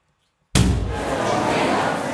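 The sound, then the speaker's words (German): A door bursting open with a sudden loud slam after silence, followed by a steady, loud wash of broad noise that carries on to the end. “Da schlägt auf einmal die Tür auf.”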